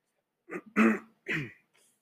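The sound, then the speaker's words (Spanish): A person with a dry throat clears it in a few short, rough, voiced bursts, loud against otherwise silent surroundings, with a faint breath at the end. “perdón, que siga aclarando mi garganta, lo traigo seca”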